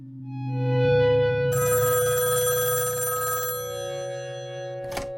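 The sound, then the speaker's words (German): A telephone rings at a music manager's, a sustained, harmonic ringing tone with a brighter, buzzy bell-like burst in the middle, fading a little before ending with a short click. “Am 5. November klingelt bei Manager Brian Epstein das Telefon.”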